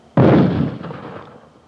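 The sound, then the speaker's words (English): A mortar fires close by with one sudden, loud boom, followed by a deep rumble that slowly fades away. No voices. “that was mortars. It just fired maybe 40 feet in back of me.”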